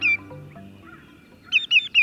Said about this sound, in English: True to their name, greater yellowlegs are shorebirds with bright yellow legs and feet.